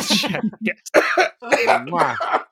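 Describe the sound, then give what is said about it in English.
A person with a strained throat coughs, giving several harsh, loud bursts broken by short gaps and mixed with voiced, throaty sounds. “while you take a coughing break”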